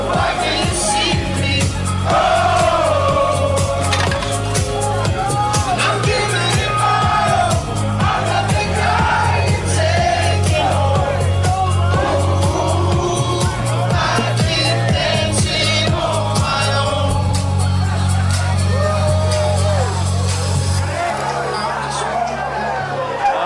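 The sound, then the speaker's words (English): Phillies players celebrating a series win in the clubhouse, dancing while their theme song blasts with a steady thumping bass beat. Loud cheering, whoops and shouting voices run over the music throughout. “There goes the music, as you can hear the celebration in full play right now here in the Phillies.”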